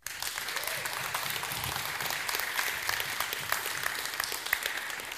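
A church audience applauds to welcome a guest preacher and his family at a morning service. The clapping is sustained and even from start to finish, a fairly faint, dense patter with no pauses.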